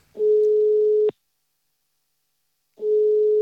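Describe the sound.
A telephone call ringing out gives two steady, mid-pitched ringback tones, each lasting about a second and separated by a silent gap, with no talk.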